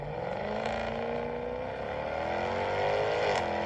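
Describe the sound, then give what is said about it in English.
Supercharged 575-horsepower V8 engine of a Jaguar F-Type R sports car revving, a loud, steady harmonic drone whose pitch climbs gradually, dips briefly midway, then rises again, with no talk over it. “What feeling do you get when you drive the 575 horsepower supercharged V8 Jaguar F-Type R?”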